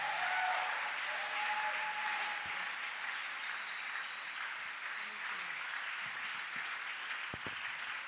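Steady, sustained applause from a church audience welcoming a preacher to the pulpit. The clapping stays dense and even throughout.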